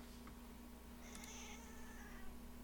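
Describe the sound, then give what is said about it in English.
A female cat meowing menacingly, faint and drawn out, barely rising above a steady low electrical hum and background hiss. “she's like meowing very menacingly. Well, I could hear her meowing pretty menacingly, yeah.”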